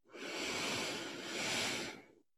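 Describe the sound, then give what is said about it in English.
A single deep inhaled breath: a soft, airy hiss lasting about two seconds that swells slightly near the end and then stops, quiet and alone. “Close your eyes. Take a deep breath in.”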